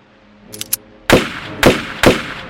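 Three loud, sharp pistol gunshots ring out in fairly even succession, each a sudden crack with a brief decay. A few faint, short clicks come before them, and no voices are heard.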